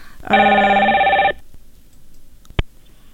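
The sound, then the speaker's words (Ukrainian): A telephone rings with an incoming call: one electronic ring lasting about a second, with a steady bright tone, followed after a pause by a single short click. “Так, у нас, судячи з усього, є дзвінок.”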